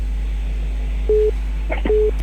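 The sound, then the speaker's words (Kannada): Telephone line tone after a caller's call drops: two short, steady beeps separated by a pause with a few faint clicks, over a constant low hum. “ಅರೆ ಕರೆ cut ಆಯ್ತು, next collar ತಗೋಣ”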